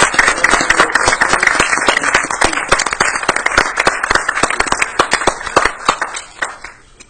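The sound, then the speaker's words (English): A round of applause at a council meeting: crisp, sharp handclaps in a busy, uneven patter that gradually thins out toward the end. “Once again, if you would give a round of applause for not only our winning ball”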